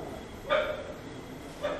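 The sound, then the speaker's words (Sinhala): A dog barks twice from over there, each bark short and faint. The barks rise only slightly above a steady background hiss, with a long gap between them. “ඇහෙන්නේ සද්ද අන්න අරේ බල්ලෙක් කියන.”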